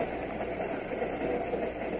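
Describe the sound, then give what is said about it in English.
Inside a railroad car of a moving train: a constant low rumble and muffled rolling drone with a soft hiss above it, steady and even throughout, with no voices. “You've been sitting in this railroad car for 12 hours”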